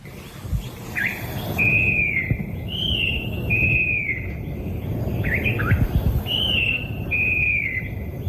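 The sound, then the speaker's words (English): Song of a falcated wren babbler from an old cassette transfer: a few clear, high whistled phrases repeated with short gaps, heard over a constant low rumble and hiss. “The loud song throughout the cut coming from the falcated wren babbler”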